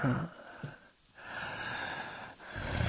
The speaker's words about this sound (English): Huh? That groaning. All that pent up energy.